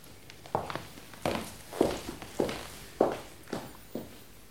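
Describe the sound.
Footsteps of a person walking away: about seven firm, evenly paced thuds with softer scuffs between them, heard alone.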